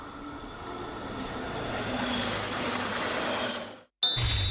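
A train pulling away from a track: a steady rumbling, hissing roll with faint wheel squeal that swells slightly, then drops out abruptly before a brief, bright burst of sound returns.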